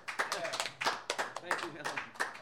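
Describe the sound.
Audience applause welcoming a songwriter to perform: many quick, steady claps in a fairly even rhythm continue throughout, with voices mixed in.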